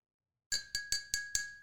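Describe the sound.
A spoon stirs sugar into a cup of coffee and taps the cup in five quick, evenly spaced clinks. Each bright clink rings on with a sustained tone. No voices are heard.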